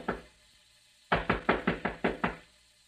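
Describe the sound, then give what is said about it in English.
Knocking on a door: one sharp knock, a pause, then a quick run of seven firm raps, heard alone against a quiet background. “Suddenly there was a knock on the door.”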